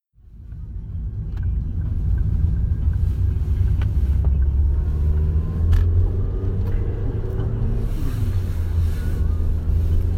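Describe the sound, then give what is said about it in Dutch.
Steady, loud low engine rumble of a car driving out of the town of Winterswijk, rising from brief quiet at the start into a constant drone with wind noise for about ten seconds. “We rijden nu eh, Winterswijk uit.”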